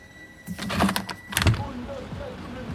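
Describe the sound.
A window being opened in an office: two loud bursts of scraping, rattling clatter follow each other closely, then fade into quieter background noise.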